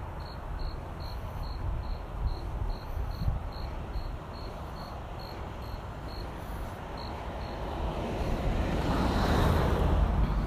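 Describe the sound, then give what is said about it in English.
At night, crickets chirp in a steady pulsing rhythm while a big SUV drives by, its broad road rumble swelling loud near the end and drowning out the insects. “I have sounds of nature, and then the big SUV comes driving by.”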